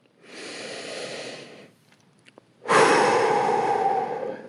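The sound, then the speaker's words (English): A deep human breath: a softer, steady draw of air, a short pause, then a louder and longer breath out like a sigh, with no talking. “take a deep breath.”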